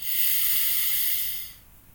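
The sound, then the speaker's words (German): A single deep breath drawn in through the nose during a guided breathing exercise: one steady, airy hiss lasting about a second and a half, then tapering off into near silence. “Einmal tief durch die Nase einatmen und lösen wieder aus. Und ein letztes Mal tief einatmen”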